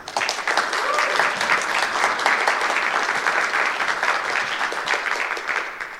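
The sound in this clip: Dense, sustained applause from a conference audience welcoming a speaker to a game development talk, holding steady for about six seconds before easing off slightly at the end.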